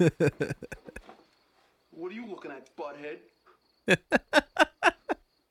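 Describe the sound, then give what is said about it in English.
Crickets chirp outside in a rhythmic series of short, pulsing chirps. They fall away while a voice speaks in the middle, then return as a regular run of chirps. “But, we can hear some crickets outside.”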